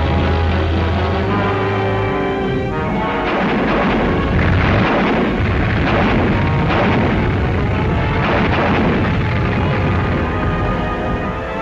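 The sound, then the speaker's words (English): Canadian artillery guns fire in support of a British infantry thrust across the IJssel River toward Arnhem in the Netherlands. Heavy booms and rumbling blasts run together loudly throughout, with a steady low drone during the first two seconds. “Canadian guns fire in support.”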